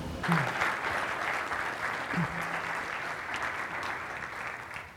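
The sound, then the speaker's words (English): A church audience applauds to welcome a preacher to the stage. The clapping is dense and sustained throughout and tapers slightly at the end, with faint voices underneath. “So would you do me a favor? And as he makes his way to the stage, would you give him a warm New Hope welcome?”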